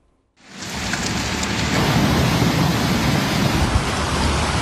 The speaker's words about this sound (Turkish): Şu an büyük bir sel giriyor bizim evin önünden. Bir yağmur gece.